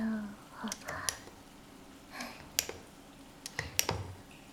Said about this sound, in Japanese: コーンヘチマにまずはぬるってボディーソープバーたっぷり垂らして、